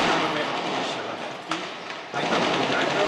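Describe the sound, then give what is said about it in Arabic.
Gunfire from a sniper during urban fighting in Syria: one sharp crack rises out of a steady, noisy background. “ونسمع طلقات القناص إضافة إلى أصوات بعض القذائف”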